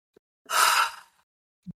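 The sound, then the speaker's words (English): A person takes a huge deep breath, one long, airy, rushing breath lasting about half a second and fairly loud, with a soft short breath sound before it and a brief one after. “What I want to do is we're going to take a deep breath here. And then we're going to go into some positive tapping, okay? So when you just take a huge deep breath.”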